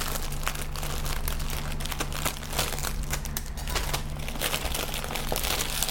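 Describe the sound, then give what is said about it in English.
Plastic product packaging is ripped open with a steady stream of crinkling, crackling and tearing noise, dense and unbroken throughout, with no voices. “getting into the packaging is going to be the worst part for me. There we go. Rip it.”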